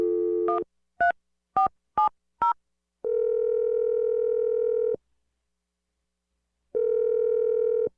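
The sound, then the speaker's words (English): A telephone being dialed: an opening steady tone, then four brief keypad beeps in a quick, uneven sequence, followed by two long, steady ringing tones separated by a pause. “Okay, here we go. I'm dialing the number.”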